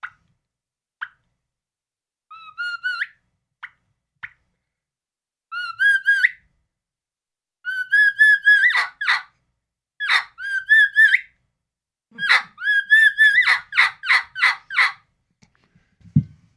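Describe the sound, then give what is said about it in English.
A hand-held turkey call imitates the kee-kee run of a lost young turkey calling for its mother. High, thin whistled notes come in short clusters separated by pauses and build into quicker runs, with raspy yelp-like notes near the end. “What about can you do a kiki run on that call? Young turkey that's lost. Hollering for his mama.”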